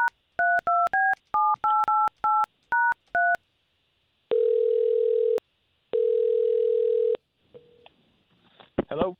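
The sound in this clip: Touch tones of a telephone number being dialed: a quick run of short dual-pitch beeps, then two long, steady ringing tones and a brief faint noise at the end.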